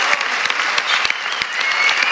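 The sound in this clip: Applause in a hall after a speech: dense, steady clapping from a crowd, loud and sustained throughout with sharp individual claps standing out.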